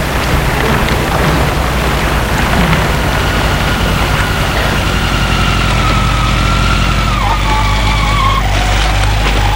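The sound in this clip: Scooter engine running with a steady low rumble throughout, joined in the second half by a higher whine that dips briefly before carrying on.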